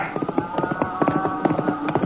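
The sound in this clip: Horse hooves of a rider coming in on a cattle trail, many quick, uneven clip-clop beats of moderate loudness, with no talk.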